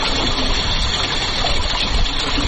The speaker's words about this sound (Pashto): دغه غږ د اوبو څاڅکي سیستم دی چې د انرژي یا اوبو د ضایعاتو د مخنیوي لپاره یو مورژنه چاره بلل کیږي.